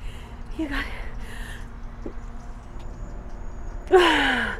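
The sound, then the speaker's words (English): Ragged gasping breaths from someone having an asthma attack while out running: a few short, breathy inhalations early on, then a louder, strained gasp near the end. “Hold on. I can't breathe. That's me coaching myself out of an asthma attack while on a run.”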